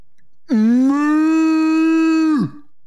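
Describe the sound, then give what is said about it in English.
A single long cow moo, played as a segment sound effect: a loud, sustained low lowing that holds steady for about two seconds before dropping off, heard alone. “it's the cow. The comment of the week. Do you understand the abbreviation? Cow.”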